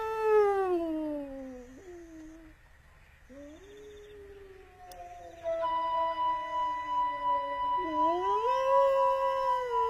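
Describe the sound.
A man imitates wolf howls, calling back to a wolf: a few long, wavering, tonal howls with strong harmonics, sliding and bending in pitch, sustained and fairly loud with only brief gaps.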